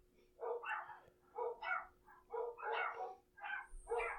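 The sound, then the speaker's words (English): Dogs barking in a village after a firework went off: many sharp, repeated barks and yips from more than one dog come in quick irregular bursts, with no talk over them. “There's a lot of dogs in this village. Damn. There was like a firework that just went off, so the dogs were barking.”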